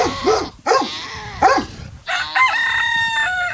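A rooster crows on a small farm raising goats and other animals; a few short, harsh calls come first, then a long, strained, harmonic crow.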